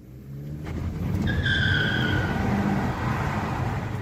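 Tires squeal as a Ford Mustang peels out, a loud high screech over a steady engine roar that runs through the whole clip.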